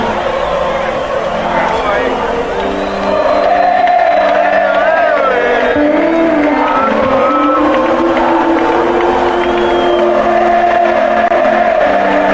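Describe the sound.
A loud, sustained crowd roar of shouting and cheering fills a 1990 stadium concert at River Plate in Argentina, with wavering vocal tones rising and falling through the massed noise.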